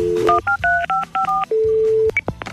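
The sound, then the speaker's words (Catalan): Touch-tone keypad beeps as someone dials the town hall of L'Hospitalet: a quick run of several short, dual-pitched tones, then one long steady tone, with no talking. “Jo truco ara mateix a l'Ajuntament de l'Hospitalet, que donin explicacions.”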